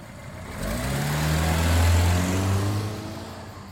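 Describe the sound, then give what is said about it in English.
An old Pontiac car driving, its low engine drone building in loudness, holding a steady rumble through the middle, then easing slightly. “she takes you and her old Pontiac and you guys drive back to the trailer park.”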